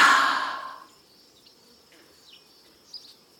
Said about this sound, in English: Let's smell the flower again. Breathe in and breathe out.